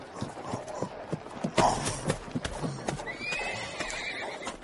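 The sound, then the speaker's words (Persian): Hooves of an approaching rider's horse in an audio drama based on One Thousand and One Nights clip-clop in an irregular run of beats, with a whinny rising partway through. “یک سوار به این سو می آید”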